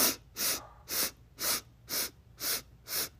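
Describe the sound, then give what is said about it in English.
Quick, sharp inhales through the nose during a breathwork meditation: seven short, hissing sniffs in an even rhythm about twice per second, faint and alone. “We're going to do 8 inhales through our nose quickly. And go.”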